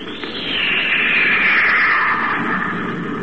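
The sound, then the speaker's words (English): Spaceship rocket firing in a radio drama sound effect: a sustained rushing roar that swells quickly and holds steady, with a hissing upper layer that sinks slightly in pitch. “If you pull away fast, you can take Krexor off guard. Okay, Happy, fire rocket.”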